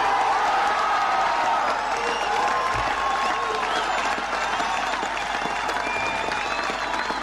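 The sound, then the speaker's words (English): A German crowd in West Berlin, with many Americans among them, cheers and applauds in a loud, dense, unbroken roar of clapping. Shouts and whistles carry through it for the whole stretch. “This is a German audience in West Berlin, full of Americans who worked there also.”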